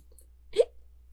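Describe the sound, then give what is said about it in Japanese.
A single short hiccup, sharp and fairly loud, stands alone against near silence. “しゃっくりが”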